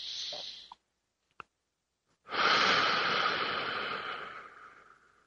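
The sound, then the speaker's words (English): A deep breath taken during a guided affirmation session: a brief breath sound and a small click, then a long, loud, airy breath that slowly fades over about three seconds. “Take a deep breath.”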